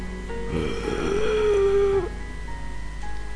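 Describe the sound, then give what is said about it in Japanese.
A breathy, groaning voice used as a ghost-story sound effect: a drawn-out low moan of about a second at a steady pitch, ending abruptly, with softer breathy noise around it. “と吐息混じりのうなり声が聞こえてきました。”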